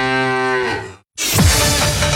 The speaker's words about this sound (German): Finde eine der letzten beiden muhenden Müllermilchflaschen und gewinne 50.000 Euro.